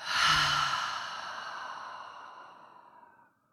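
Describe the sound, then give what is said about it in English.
A deep exhale through an open mouth during a guided breathing exercise: one long breathy sigh that starts loud and tapers off gradually over about three seconds, with no talk. “So huge inhale in through the nose. Open mouth, exhale.”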